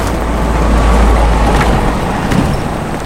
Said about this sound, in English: the Jaguar turns onto a dirt path